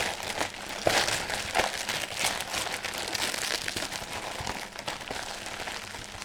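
Wrapping paper ripping and crinkling as a gift is torn open: many loud, rough tearing and rustling bursts in a dense, uneven stream lasting several seconds, with no voices over them.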